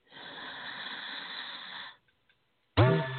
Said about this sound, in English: I want you to just take a nice deep breath in.